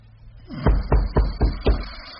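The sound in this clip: Knocking on a rooming house door: five loud, evenly spaced knocks in a steady rhythm, each sharp and heavy, with nothing else between them.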